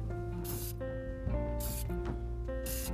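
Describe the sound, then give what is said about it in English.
Spraying: a few short hissing spray bursts come and go, faint over a steady tonal hum in the background. “Yes, I am spraying here today.”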